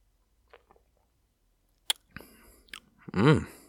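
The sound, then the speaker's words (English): Sipping a blueberry cream ale, heard as a few soft mouth clicks and lip smacks, then a wet slurp and swallow, ending in a short, louder voiced sound. “I'm going to take a sip of this Sheboygan Blueberry Cream Ale right here really quick.”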